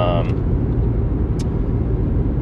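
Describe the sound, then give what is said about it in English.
Steady low rumble of engine and road noise fills the inside of a car driving to work. The dense, even drone holds throughout, with a brief higher tone at the start. “driving on my way to work”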